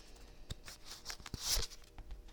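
Oracle cards being shuffled and drawn: a few soft papery rustles and light clicks, with a louder brushing swish midway, all fairly quiet.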